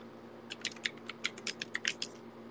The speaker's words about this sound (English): Let me just type it in.